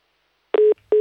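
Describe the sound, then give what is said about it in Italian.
A telephone disconnect tone after a call cuts out. Two steady, low, buzzing beeps play alone, and the second one starts just before the end. “Il telefono va e viene, in questo caso è andato.”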